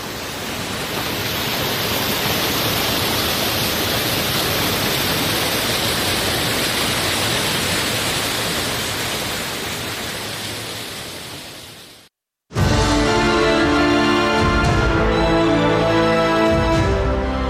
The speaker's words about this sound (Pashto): د اروزګان د مزار بابا په نوم دا چینه د دې ولایت یو له مشهوره تفریحي او تاریخي سیمو څخه ده چې د ښکلي طبیعت او یخو اوبو په لرلو سره د خلکو لپاره د آرامۍ او ساتیري یو غوره ځای دی.